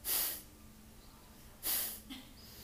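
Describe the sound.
Two soft, hissy breaths drawn through the nose demonstrate a slow, passive inhale in a gentle hatha yoga breathing exercise. Each breath is brief and airy, separated by quiet.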